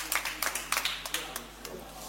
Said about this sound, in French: Merci à vous, vous êtes formidables. Applaudissez-vous.